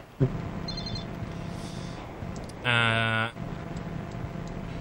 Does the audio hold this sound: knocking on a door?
no